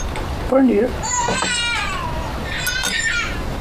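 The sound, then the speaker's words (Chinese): An infant cries after being woken, letting out high, wavering wails in two bursts alongside voices. “你看看，你看看，就你俩，孩子吵醒了。”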